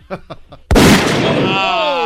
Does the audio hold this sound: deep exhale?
no